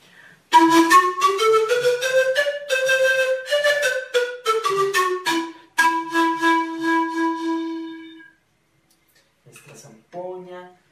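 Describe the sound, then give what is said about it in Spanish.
A zampoña, panpipes made of tunda cane tubes in two tied rows, plays a breathy melody that climbs in pitch, then holds a long, fading note. After a short silence come a few brief soft notes. “por aquí tenemos una amiga zampoña, ella es hecha con varios tubitos de una caña que se llama tunda, son dos tablitas amarradas de esta forma y más o menos suena así.”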